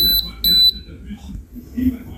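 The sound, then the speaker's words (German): A domestic oven beeps a few times in a quick burst, giving short, piercing high-pitched electronic tones. People then start talking once the beeping stops. “Ist das ein Ofen? Ja, ein Ofen.”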